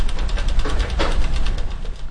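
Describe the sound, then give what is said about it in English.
Mobile archive shelving rolls open as its tumble wheel is turned, giving a loud, steady mechanical rumble with a low, faintly pulsing grind and no voices. “Beyond this lab, with the turn of a tumble wheel, scores of shelves are revealed, each with stacks of books, documents, and papers.”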